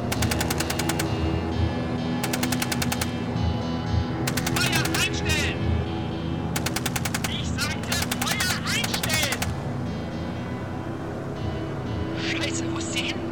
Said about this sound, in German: Ich sagte doch abknallen. Sofort, verdammt! Knallt sie über den Haufen! Habe verstanden. Erschießt sie!